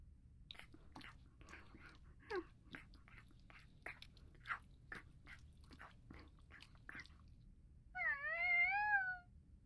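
A cat eating its breakfast makes many faint, crisp chewing and crunching clicks in an irregular rhythm, followed by a short, clear meow near the end.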